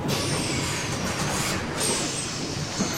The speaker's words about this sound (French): tu entends ? Oh ! Son bus vient enfin d'arriver